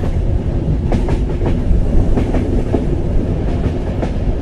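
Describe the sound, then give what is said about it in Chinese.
Rumble of a Tze-Chiang express train departing the platform at Taichung station: a loud, steady rolling roar with faint rhythmic clicks of wheels over rail joints. “各位旅客，八点往高雄的自强号在第三月台要开了。”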